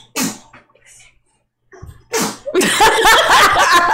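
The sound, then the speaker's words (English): A five-month-old baby sneezes in short, sharp, loud bursts with quiet gaps between them, and a longer stretch of busier sound follows at the end. “My son. That would be my 5-month-old sneezing.”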